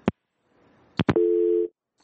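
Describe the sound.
A telephone busy tone follows a caller's dropped line: a few sharp clicks, then one steady mid-pitched tone lasting about half a second before it cuts off.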